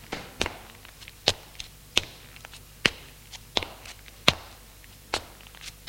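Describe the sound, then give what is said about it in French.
Heavy footsteps of a woman walking through a dark hall toward the stairs. Each step lands as a sharp, weighty thud at a slow, even pace, clear and alone with no talk. “Son pas est de plus en plus pesant.”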